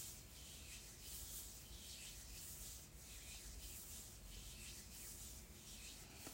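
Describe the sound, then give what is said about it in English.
Hands gently rubbed together to warm them give a soft, dry, continuous swishing friction that stays steady throughout, with no voices. “Allow us to enliven our fingers and gently rub the hands together, warming the hands.”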